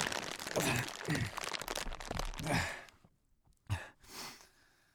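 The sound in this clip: A plastic tarp crinkles and rustles as it is taken off, in a dense, fairly faint stretch of crackling. A pause follows, then two brief crunchy bursts, with breathy sounds mixed in.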